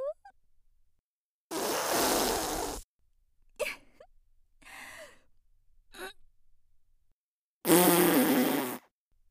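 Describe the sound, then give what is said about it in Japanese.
A middle-aged woman farts twice, each a loud, noisy burst of about a second, with a few shorter, softer sounds between them. “頑張れ、頑張れ。おばさんのおならに負けちゃダメだぞ。”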